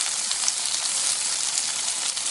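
Pancakes frying in oil in a pan give off a continuous, even hiss and crackle of sizzling that holds steady throughout with no talk.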